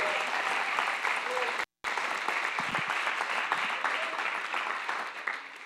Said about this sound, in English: open up your hearts, put your hands together, and welcome Pastor Mark and Trina Hankins as they come to minister to us.